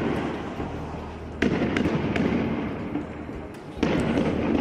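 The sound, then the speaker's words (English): Israeli police fire tear gas launchers at Palestinian protesters in Bethlehem, with two loud, sharp bangs spaced a couple of seconds apart and a few smaller pops over a constant rumbling crowd noise. “The sounds here of Israeli police firing tear gas at Palestinian protesters in Bethlehem today”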